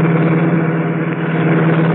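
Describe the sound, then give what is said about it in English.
Engine of a sleek, streamlined, super-powered car runs with a loud, even low drone that stays unbroken from start to finish, with no voices. “Britt Reed pressed a button. The great car roared into life.”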